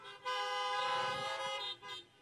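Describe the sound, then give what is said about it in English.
Car horns honking in reply to a call to honk: a bright, sustained horn blast lasting well over a second, then a shorter toot, loud and alone with no talk. “If you own running shoes, honk your horn.”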